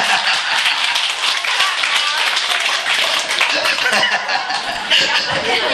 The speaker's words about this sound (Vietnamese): Vỗ tay đi.